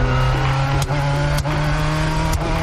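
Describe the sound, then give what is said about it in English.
Engine of a manual-transmission car driven by a learner, a steady, loud drone with a couple of brief dips in level partway through. “I just learned how to ride stick. Want to go for a ride? Sure, let's see what you've learned.”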